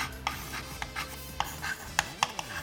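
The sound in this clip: Lead scratching on a very old writing tablet, a series of short, faint scrapes and taps with uneven spacing.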